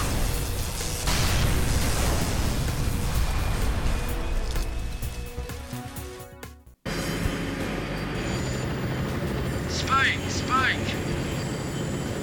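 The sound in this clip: Aircraft engine roar in a combat flight video game with an incoming missile threat, a loud, continuous rushing drone broken by one abrupt silent dropout midway, then resuming with short chirping electronic tones near the end.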